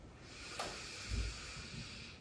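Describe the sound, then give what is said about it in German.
A slow breath drawn in through the nose during a post-COVID breathing exercise: a faint, continuous airy hiss with a soft click and a low muffled bump partway through. “dann leg einmal die eine Hand auf deinen Bauch, die andere Hand auf dein Brustbein und atme durch die Nase ein”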